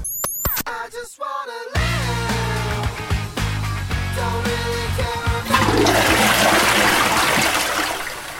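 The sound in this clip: A toilet flush: a loud rush of water that swirls and gurgles, swelling into a broader, hissing surge toward the end before easing slightly.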